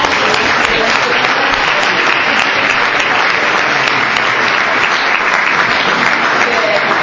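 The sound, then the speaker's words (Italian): Warm applause from an audience at a gathering with priests, thanking a speaker: loud, dense clapping from many hands that holds at an even level throughout, without a break. “Beh, ringraziamo intanto con un applauso,”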